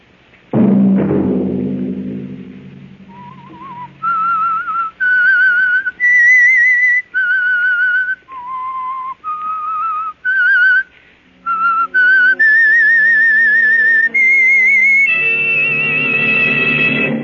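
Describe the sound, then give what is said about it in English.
A lone whistler carries the eerie theme of The Whistler mystery series, a wavering melody of held notes leaping up and down. It opens after a low thump, and sustained lower instrumental tones join beneath it toward the end. “Wait a minute. Have you heard the weird tales of the Whistler?”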